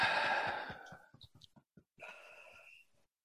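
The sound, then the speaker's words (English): A big, deep breath taken on cue during a group exercise: a long, airy rush of breath, a few soft clicks, then a second, shorter breathy phase that fades to silence. “Take a nice big deep breath for me.”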